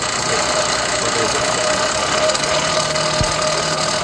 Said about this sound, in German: Was man hier gerade ganz wunderbar hört, ist diese wunderschöne alte Esse, die wir haben. Die, habt ihr das schon beschrieben, mit einem alten Fahrradhinterrad angetrieben wird.